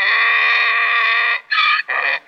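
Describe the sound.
A donkey brays loudly, holding one long, strained, harmonic-rich call before breaking into three shorter bursts with brief gaps between them, with no voices present.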